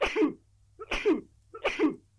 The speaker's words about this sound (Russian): в носу защекотало, и я несколько раз чихнул.